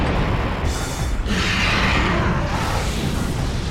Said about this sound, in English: Everything's exploding.